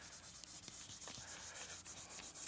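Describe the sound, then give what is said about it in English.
Eraser scrubbing long-left writing off a board: a steady run of many quick, rhythmic rubbing strokes, soft and raspy, with no voices. “This is why you don't leave this without erasing it for a whole week, because it's very, very hard to erase this.”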